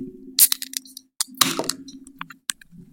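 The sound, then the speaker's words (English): A beer can is cracked open: sharp clicks and a short hissing burst of released gas, then a few lighter clicks over a faint low hum. “since you're not going to crack your beer, I'll crack mine.”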